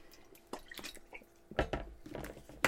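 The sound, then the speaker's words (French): A person takes a drink of water during a snack taste test: several faint, wet swallowing and liquid sloshing sounds, with soft clicks and drips at uneven intervals and a slightly louder cluster near the middle, with no talking. “Petit drink d'eau avant.”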